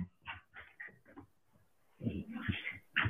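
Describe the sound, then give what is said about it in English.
Excited sounds from a hyperactive dog with the zoomies, running around: scattered short scuffling, whimper-like bursts, then a denser, louder stretch toward the end. “my son, my dog got the zooms right now. Yeah, he going through it. Yeah, nah, he good. He just a little hyper, but it's good.”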